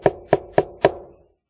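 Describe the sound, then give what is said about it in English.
Knocking on a door: four sharp, evenly spaced raps, loud and alone, each with a short resonant ring, the last one trailing off a little longer. “Somebody knocks on the door, man.”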